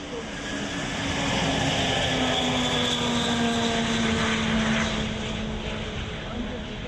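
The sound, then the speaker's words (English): Steady, powerful engine roar from Maria, the world's heaviest and biggest carrier aircraft, performing at the 8th International Aerospace Show in Kyiv, with a sustained droning hum and tonal whine that swell slightly midway and hold loud throughout. “Ukraine's crown jewel Maria, the world's heaviest and biggest carrier aircraft, was the highlight of the performance.”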